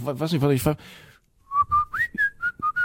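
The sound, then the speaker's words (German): A person whistles a song: several short, bright notes with a quick upward slide partway through, after a brief burst of talk. “Das reicht wahrscheinlich schon im Hintergrund einfach mal einen Song zu pfeifen”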